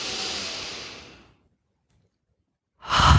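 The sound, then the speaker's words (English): A slow, deep exhale during a relaxation breathing exercise fades gradually into silence. A fresh breath starts at the very end. No one speaks. “Let's pause here and take some breaths into the body, into the belly. Just letting your body release through the exhale.”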